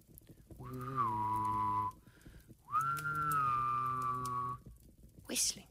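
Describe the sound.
A person whistles two long, sustained notes. Each starts with a quick upward slide, and the second is longer and drifts slightly lower. The whistling is fairly quiet, with a short pause between the notes.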